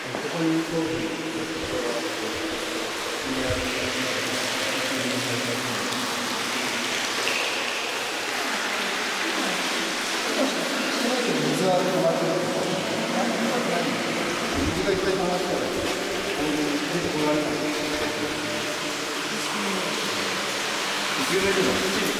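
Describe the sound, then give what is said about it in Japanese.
Water flows in a steady, continuous rush of broad noise throughout, with voices talking faintly over it. “やっぱり水が流れてますね。”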